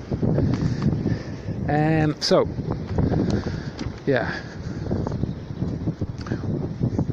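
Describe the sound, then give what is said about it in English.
Wind buffets a microphone outdoors on a cold, windy day, a constant low rumbling roar that stays at an even level throughout. “it's so windy and cold.”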